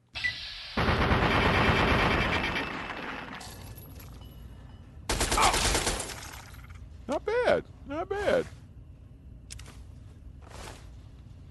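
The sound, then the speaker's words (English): Rapid automatic fire from a 10mm submachine gun in the Fallout 3 video game, heard as two long rattling bursts, then a few short, shrill, warbling creature cries. “let's see how my 10 mil submachine gun does to the Lurk face”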